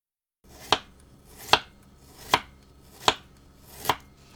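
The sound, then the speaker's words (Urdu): Knife chopping peeled ginger into thin lengthwise strips: five crisp, evenly spaced chops, each a sharp click, with nothing else heard between them. “اب ادرک کو چھیل کر لمبائی میں باریک ٹکڑوں میں کاٹ لیجئے۔”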